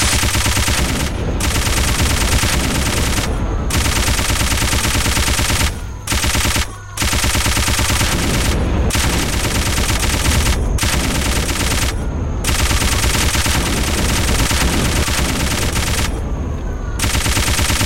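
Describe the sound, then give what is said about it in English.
Rapid, continuous machine-gun fire in a video game boss fight, aimed at shooting down the boss's incoming nukes; the loud automatic bursts run almost nonstop, broken only by a few brief gaps. “Yeah, so this is the boss who will shoot nukes at you. That's the... You have to shoot those.”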